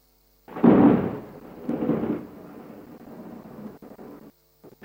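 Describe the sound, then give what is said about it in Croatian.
Thunder from a lightning strike: a loud, broad rumbling burst, a second swell, then a long rolling tail that slowly fades, heard alone with no talk. “E, sad kad munja pade na te, učini mi se... Ja se munjama neću stranjati.”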